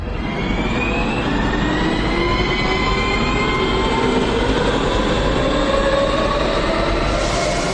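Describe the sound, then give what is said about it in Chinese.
A high-speed electric multiple unit passenger train runs with a steady, loud, continuous rumble and roar. Faint whining tones drift through the noise, and no one speaks. “欢迎乘坐动154列车，本车全程运行时间为6小时26分，我们会为大家提供安全舒适高速的乘车体验”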